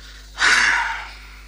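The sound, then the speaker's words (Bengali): A loud, heavy breath, a single sharp gasp-like exhale that swells quickly and then fades, heard alone with no talking. “এত জোরে শ্বাস ফেলছো কেন?”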